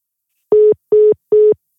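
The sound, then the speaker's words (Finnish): A telephone busy tone after a caller hangs up: three short, steady beeps at the same mid pitch, evenly spaced and equally loud, with nothing else heard. “Mitä siellä tapahtui? Se löi luurit. Silloin varmaan tuli puhelu.”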